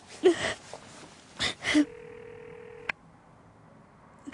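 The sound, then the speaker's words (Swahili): A telephone is dialed to place a call: a few short, noisy bursts, then a steady single tone held for about a second, cut off by a sharp click and followed by near silence. “Lazima nimpigie simu Marcel. Lazima nimpigie nimwambie kuwa siwezi kuendelea.”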